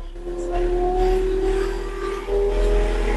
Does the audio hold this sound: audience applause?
no